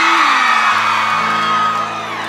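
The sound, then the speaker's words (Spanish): Women in a live concert audience whoop and shout with pleasure: a loud, dense burst of excited high voices that holds steady for a couple of seconds without a clear break. “Y ese grito de placer, mujeres.”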